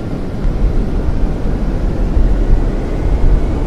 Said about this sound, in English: Sierra Kilo 737, you're clear to taxi to and take off from runway A2.